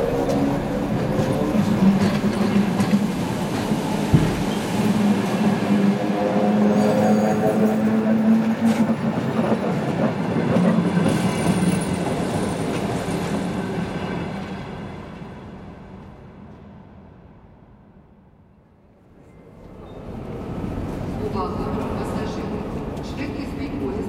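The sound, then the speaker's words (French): Train arriving at a Kiev railway station, a steady broad rumble of rolling wagons that holds for about fifteen seconds, sinks to a brief lull near the end, then swells again. “en attendant le train de Kiev qui arrive à midi.”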